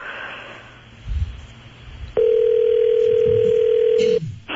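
A telephone tone sounds while a call is being placed. A single steady, unbroken tone holds for about two seconds after a few faint low rustles, then cuts off abruptly.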